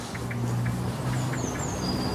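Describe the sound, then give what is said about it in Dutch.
Blackbird murmuring soft subsong, a quiet, rambling run of faint chirps and thin high whistles that barely rise above a steady low hum. “Het is een merel die een beetje met subsong aan de gang is. Dus heel zachtjes binnensmonds zingen.”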